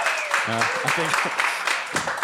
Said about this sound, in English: All right, you guys, finals. You can only clap for one.